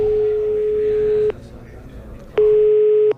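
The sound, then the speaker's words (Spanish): Telephone ringing tone while placing a call: a steady, plain mid-pitched tone sounds for about a second, stops, then starts again for another long beep. “me van a permitir que coja el teléfono. A ver, voy a llamar a Roberto Lancha”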